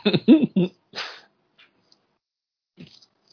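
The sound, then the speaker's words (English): A cat cries out after being stepped on. Three sharp, strained yowls come in quick succession, followed by a softer trailing breathy cry, then near silence broken by a few faint, low sounds. “you have to step on the damn cat.”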